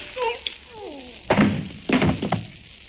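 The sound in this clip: Heavy blows from the butt of a gun land as a few dull, hard thuds, struck in quick succession right after a brief voice, in a crime drama.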